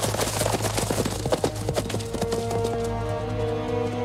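Horses gallop away in a rapid, uneven run of many hoofbeats that thins out and grows quieter after about two and a half seconds, leaving a low steady hum.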